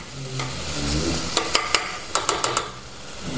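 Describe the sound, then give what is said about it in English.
Onions sizzle steadily in a pan while cooking until translucent, as a utensil stirs them and knocks against the pan in a quick series of sharp clicks over the frying hiss. “And stir that around. Now you want to cook the onions till they're translucent.”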